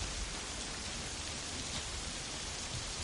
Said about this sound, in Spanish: La lluvia arrecia. Están en el edificio. La lluvia se cuela por los agujeros del techo.